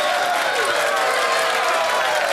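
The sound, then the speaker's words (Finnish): Steady applause from an audience, dense clapping that holds at an even level for a couple of seconds, with no pause or break. “Kiitokset ja aplodit.”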